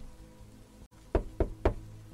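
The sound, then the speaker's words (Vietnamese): Three sharp knocks on a door from outside, evenly spaced and fairly faint, arrive after a stretch of low background hum. “mọi người nghe tiếng gõ cửa ở bên ngoài”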